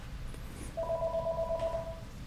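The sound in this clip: A telephone rings with an incoming call to a call-in line: one faint burst of rapid, warbling two-tone pulses over a low background hum.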